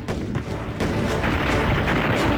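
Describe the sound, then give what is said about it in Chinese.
Concentrated artillery fire striking enemy bunkers in a wartime battle: loud, heavy booming that merges into a continuous dense roar, with no separate blasts standing out. “东北野战军炮兵集中火力射击国民党军配水池地堡群，四发命中。”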